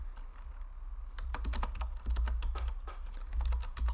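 Typing on a computer keyboard while entering a search, many sharp, quick key clicks in irregular bursts over a low steady hum, with no speech.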